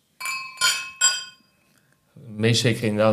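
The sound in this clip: Glasses of sparkling crémant brut clinking in a toast: three bright, ringing glass chimes in quick succession, each with a short decay, followed by a voice speaking.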